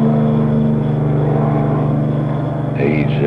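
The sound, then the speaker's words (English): A helicopter passes overhead, a steady low droning buzz that holds at an even level throughout, with a voice briefly heard near the end. “You probably hear the buzzing going by. That's a helicopter coming over.”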